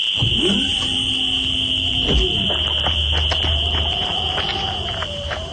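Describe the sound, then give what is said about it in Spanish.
An alarm goes off, a steady shrill tone sounding loud and unbroken throughout, with a low rumble and a few faint thumps beneath it. “¡Otra vez alarma esa!”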